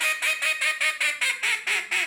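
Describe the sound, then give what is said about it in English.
A duck call quacks in a rapid, evenly paced string of loud, nasal, buzzy quacks, each short and bright, repeating steadily throughout with no talk. “Another interesting thing about Stuttgart, it's home to the World Championship Duck Calling Competition.”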